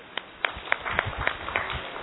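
An audience at a spiritual lecture claps in a roughly regular rhythm, producing faint, soft claps over a murmuring background.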